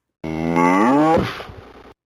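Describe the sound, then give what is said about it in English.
A cow-like "moof" call from the dog cow icon character: a single drawn-out, low, harmonic lowing tone that trails off into a short breathy rasp, heard alone. “Claris, the dog cow. She says, moof.”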